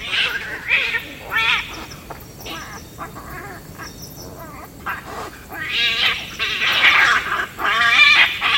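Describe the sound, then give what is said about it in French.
Agitated mongoose calling at night beside a pond: harsh, wavering squeals and yowls come in several loud bursts, thickest toward the end. “C'est une mangouste pas très contente, a priori, qui a dû stresser avec quelque chose.”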